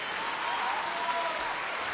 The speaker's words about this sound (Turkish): çok alkışlıyım